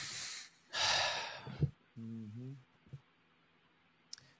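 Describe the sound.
A person breathing deliberately: a hissing inhale, then a louder, longer exhale, followed by a short voiced sigh and a few small mouth clicks, all quiet and alone.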